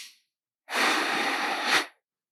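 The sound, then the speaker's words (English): A single slow exhale through the nose, shown as a breathing demonstration in a meditation session: soft, airy breath noise that swells briefly, holds steady for about a second, then stops, with no talking. “The most important is to keep the air going in and out through your nose, not from your mouth. Okay? So exhaling like this, I will demonstrate to you.”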